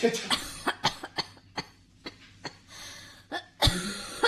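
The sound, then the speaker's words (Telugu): A woman coughs repeatedly in a run of short, harsh bursts that vary in strength, with the loudest ones coming near the end. “ఏంటి దగ్గుతున్నావు”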